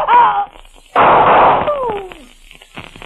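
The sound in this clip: A single gunshot bursts out in a dramatic scene, a sharp, loud blast that decays over about half a second, with voices heard before and after it.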